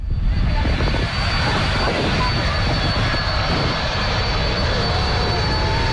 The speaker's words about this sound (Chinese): 从荷兰首都阿姆斯特丹起飞，一路向西向南，历时8个半小时，还可以降落在荷兰的领土。